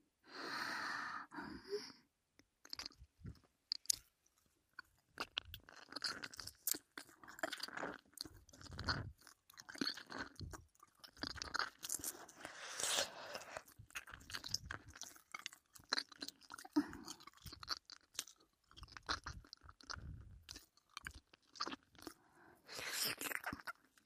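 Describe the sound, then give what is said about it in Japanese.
Wet chewing, biting and lip-smacking ASMR mouth sounds pretend to eat the listener's ears. Many irregular moist clicks and crunches continue for the whole stretch, mixed with soft breaths and short gasps. “では早速お耳いただきます。”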